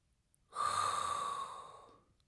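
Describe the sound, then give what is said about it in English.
A single long inhaled breath, a breathy hiss that swells quickly, holds, then tapers off over about a second and a half, heard alone against near silence. “So now there is only one thing left to do, and that is inhale a hot breath”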